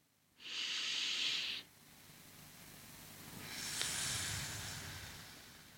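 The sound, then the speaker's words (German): A slow breathing exercise: a hissing inhale lasting about a second, then a longer, softer, deliberately delayed exhale that stretches over several seconds, quiet overall. “Da hast du automatisch eine Verzögerung im Ausatmen. Und das erzeugt eben, wie gesagt, diesen leichten Druck. Ich atme nochmals ein.”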